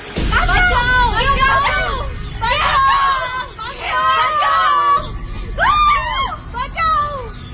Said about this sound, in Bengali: আর ঠিক তখন মেয়েদের জায়গা থেকে এলো তিন চারটা স্বরের চিৎকার।